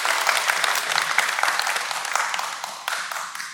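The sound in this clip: An audience applauds at a community gathering, giving it up for new t-shirts. Dense, steady clapping from many hands holds throughout and eases off slightly toward the end.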